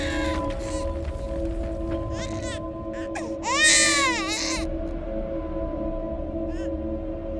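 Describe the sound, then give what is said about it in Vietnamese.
A child crying shrilly outside a cemetery: piercing, high wailing cries with sweeping rising and falling pitch, loudest in a burst midway, over a steady low drone. “loáng thoáng ở bên ngoài nghĩa địa, có tiếng trẻ con khóc choe choé”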